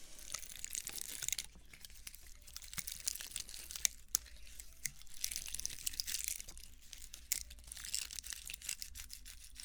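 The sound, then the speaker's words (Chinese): Crinkling, crunching crackles of a pine cone being handled, with many small crisp snaps and dry rustles at low level and no voices. “有人留言说想听松果的声音，然后我就一直忘了，然后现在终于再做一期这种出发音就想起来了。”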